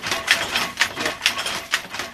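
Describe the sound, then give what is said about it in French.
Shuttle of a weaving loom thrown back and forth, giving a steady series of sharp mechanical clacks roughly every half second, each one a bright, brief burst in an even working rhythm. “Well, the noise here is the shuttle being thrown back and forward.”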